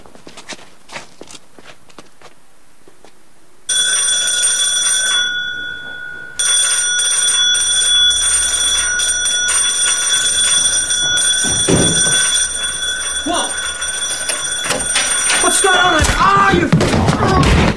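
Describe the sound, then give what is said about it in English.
A townhouse doorbell rings in a loud, sustained electric peal that breaks off briefly and then resumes for many seconds. “While the other three hide on either side of the door, a badly beaten Dave rings the bell.”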